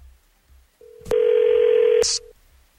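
Telephone tone while placing a call: a single steady mid-pitched tone lasting about a second and a half, thickened by a louder buzzing layer through most of its length and cut off with a brief click.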